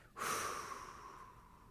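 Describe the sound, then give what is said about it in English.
A person breathes out in one long, breathy exhale that begins abruptly and strongly, then slowly tapers off over about a second and a half, with no talking. “And then Jesus, it says he breathed out, he exhaled.”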